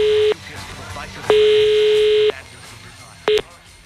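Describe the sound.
Outgoing telephone call ringing out: a buzzy, mid-pitched ringback tone sounds in three bursts, a full one-second tone between two clipped ones, with quiet gaps in between.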